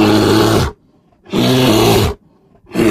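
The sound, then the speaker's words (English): A grizzly bear roars in loud, rough, growling bursts, two full roars separated by near silence, then a third beginning at the end. “The answer was a grizzly.”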